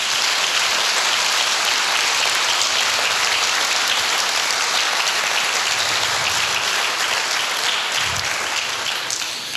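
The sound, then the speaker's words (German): Warm applause from an audience welcoming guests at an event, a dense, even patter of clapping that stays loud and steady throughout, with no voices over it. “Herzlichen Applaus.”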